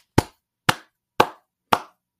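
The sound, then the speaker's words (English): Five sharp hand claps at an even, steady rhythm about half a second apart, each a crisp, dry smack with a quick decay and silence between. “he gets a clap from me. And that might be the only time I applaud former President Bush.”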